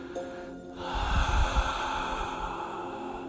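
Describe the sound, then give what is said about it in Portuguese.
Breathing exercise: a slow breath drawn in through the nose and let out again, a soft, steady rush of air over a faint sustained tonal background. “Inspira, inala por el nariz abdômen, diafragma é e suelta, solta.”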